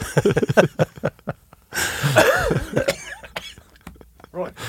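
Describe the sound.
A coughing fit as someone chokes, harsh hacking bursts mixed in among people talking.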